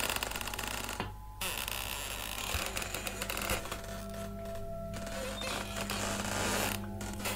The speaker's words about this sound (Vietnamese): bất ngờ cánh cửa được ghép bằng những nan tre bị gió thổi vào, cót ca cót két, từ từ mở ra. Âm thanh trong đêm nó rít lên nghe đến giận cả người.